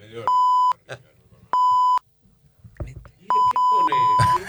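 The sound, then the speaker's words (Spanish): Radio time signal marking 1:30 pm: loud, steady electronic pips all at the same pitch, the final one the longest, separated by stretches of talk. “va a sonar el top de la 1:30 de la tarde”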